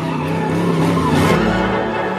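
Car tires squealing during illegal street racing, a loud, unbroken screech mixed with engine roar and steady droning tones throughout, with no talking.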